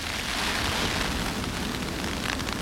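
Hail rattles into an umbrella during a wintry shower, a dense, steady hiss of tiny impacts that holds at an even loudness throughout, with no voices.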